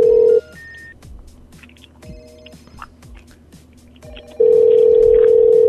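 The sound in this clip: A telephone ringback tone rattles through large headphones: a long, steady mid-pitched tone stops, a quieter stretch follows, then the loud tone returns and holds to the end.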